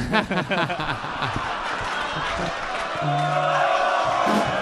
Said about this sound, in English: Wow, this crowd knows what's up. The chants have begun.